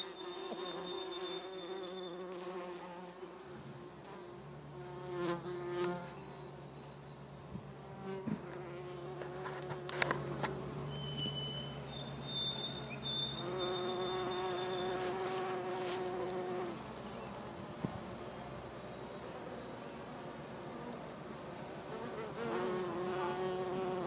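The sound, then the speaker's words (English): Bees buzzing outdoors in Gros Morne National Park, Newfoundland, in August: faint, wavering drones that swell and fade as individual insects pass, with a few brief sharp ticks scattered between them. “this is the sound of bees here at uh, Bowman”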